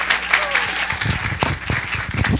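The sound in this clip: A church audience applauds to welcome a speaker at a morning service, with a brisk, steady patter of many hands clapping and a few voices mixed in.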